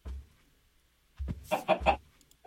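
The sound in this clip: Chicken clucking in a video game: a low thump, a pause, then a short burst of a few clucks in quick succession, fairly faint and alone.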